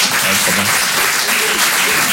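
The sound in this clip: Audience applause at a live show: a loud, dense wash of many hands clapping together, sustained and even from start to finish.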